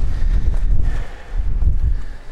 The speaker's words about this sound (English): Wind is still certainly whipping through